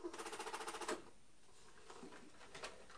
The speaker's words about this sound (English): So I press that all the way down till it clicks. The blue and the green one have to go right the way down till they click.